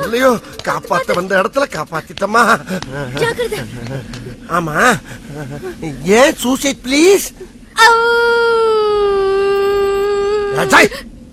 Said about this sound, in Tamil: காரணத்தை சொல்லு, அழுதுகிட்டு இருக்கேன்.